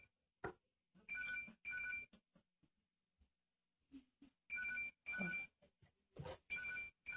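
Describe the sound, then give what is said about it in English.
A telephone rings faintly in short, bright electronic bursts, mostly coming in pairs, separated by gaps of near silence and a few soft knocks. “Oh, that's my phone.”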